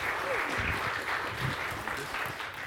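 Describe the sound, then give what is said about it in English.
A church audience applauds in steady, dense clapping that runs from start to finish, with faint voices mixed into the crowd. “Let's honor God and let's let Larry know how much we appreciate him. Give him a big hand.”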